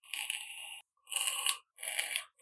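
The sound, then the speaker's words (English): A man vaping exhales vapour in three long, breathy, high hissing puffs separated by short silences, with a fourth just starting at the end. “every once in a while he vapes, and it might sound something like this.”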